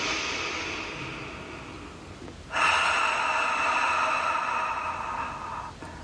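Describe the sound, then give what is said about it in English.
A deep breath during a guided meditation: a slow inhale through the nose lasting about two seconds, then a louder, longer exhale through the mouth that fades near the end. “So go ahead and close your eyes. And take a nice deep breath in through the nose, out through the mouth.”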